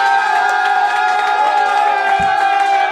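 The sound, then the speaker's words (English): A crowd cheering and whooping at a live rap battle at Phoenix Landing, a loud, sustained wall of voices with no pause. “If you feel like Abstract Minor won this battle, make some fucking noise.”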